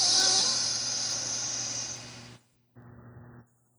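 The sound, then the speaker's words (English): A deep breath drawn in through the nose makes a long, airy hiss lasting about two seconds, followed after a short pause by a shorter, softer breath. “Preferably through your nose, in and out. And one more time, inhale.”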